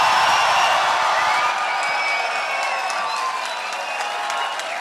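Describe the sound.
CDA party supporters cheer at an election night party, a loud, continuous mix of whoops, shouting and clapping with high whistles cutting through. The cheering eases only slightly over five seconds.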